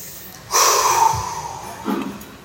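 A deep breath is drawn during a church sermon, heard as a loud, breathy rush of air. It begins abruptly, lasts about two seconds and slowly fades, with a brief second swell near the end.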